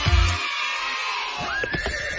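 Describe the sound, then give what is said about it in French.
A horse whinnies, one of the exceptional horses at an equestrian show, a single loud, sustained neigh that rises and wavers over about two seconds. “Découvrez des chevaux d'exception dont The Real One, légende des courses.”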